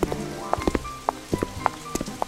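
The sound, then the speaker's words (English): Rain falls on a street, with scattered individual drops landing in an irregular patter. The drops are faint and sparse rather than a heavy downpour. “It started to rain and the street was quickly flooded.”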